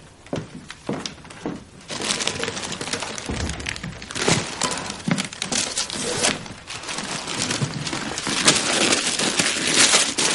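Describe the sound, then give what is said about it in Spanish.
Wrapping paper crinkles and tears as it is pulled off a package holding an antique typewriter, in irregular rustling bursts of moderate loudness with no voices. “La joven quita el envoltorio y ve la antigua máquina con la que aprendió a escribir.”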